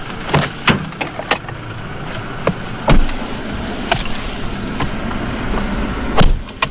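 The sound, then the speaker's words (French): Inside a vehicle carrying four people on the road out of Kitwe in Zambia's Copperbelt, a steady low engine and road rumble is broken by many sharp knocks and thumps. No one speaks. “Au départ de Kitwe, nous sommes 4 dans un véhicule.”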